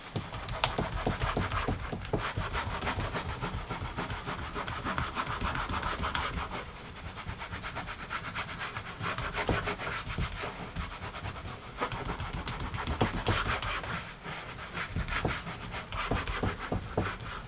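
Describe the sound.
Sandpaper rubs steadily across a surface in a continuous rasping scratch of rapid back-and-forth strokes. It keeps a fairly even loudness throughout, with no talk.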